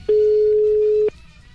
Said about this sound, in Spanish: Estamos marcando.